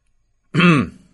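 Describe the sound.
A single throat clearing, one short, rough burst of roughly a third of a second, heard alone with no speech around it.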